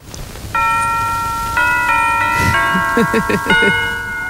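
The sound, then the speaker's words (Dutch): A chiming intro jingle from the first Dutch television broadcast in 1951, from a studio in a converted church in Bussum: loud, sustained bell-like tones step through a melody, joined midway by a bouncy, plucked low rhythm. “En dat introotje van die allereerste uitzending, die klonk ongeveer zo.”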